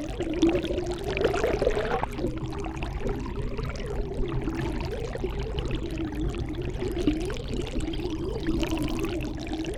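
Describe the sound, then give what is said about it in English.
Underwater flow of a stream, picked up by a hydrophone in the stream bed: a continuous churning rush of gurgling and bubbling that stays steady throughout. “You put a hydrophone in a stream bed. Here it is.”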